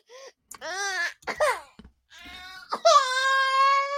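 A baby fusses and cries in a few short, wavering wails with breaks between them, then lets out a longer, steady, high cry that holds to the end.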